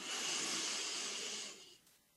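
A single slow, deep breath taken during a guided relaxation exercise, a soft, airy hiss that holds steady and then fades away, quiet and without talk.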